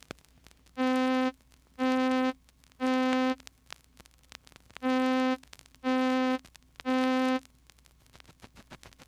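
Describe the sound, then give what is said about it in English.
An electronic middle C tone with all its overtones sounds six times in two groups of three, each a steady, buzzy, harmonically rich note about half a second long, with short silences between. “Middle C, with all its overtones, sounds like this.”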